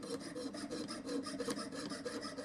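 A coping saw cuts through a wooden workpiece with many quick, even rasping strokes in a steady back-and-forth rhythm, faint and with no talk.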